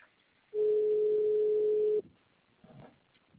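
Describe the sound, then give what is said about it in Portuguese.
A telephone tone plays while a call is being transferred: one steady, continuous mid-pitched beep lasting about a second and a half, followed by faint line noise. “então, enquanto eu transfiro sua ligação para um atendente da central de consignado continuar com seu atendimento.”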